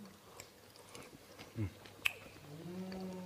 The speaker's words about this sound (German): Ich probiere mal am besten so eine Karotte, weil die brauche ich natürlich am längsten.